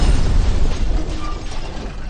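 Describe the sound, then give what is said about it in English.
A missile explosion as it smashes into a position of droids, heard as a loud, dense roaring blast that fills the whole clip and eases off slightly in level toward the end. “Then, they exploded as a missile smashed into their position.”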